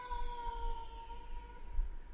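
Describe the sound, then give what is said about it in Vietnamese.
A cat gives a long, drawn-out yowl: a steady tonal cry that holds nearly level for about two seconds, dipping slightly, faint throughout. “Con mèo co giò lao qua mặt bà, chạy vào trong sân.”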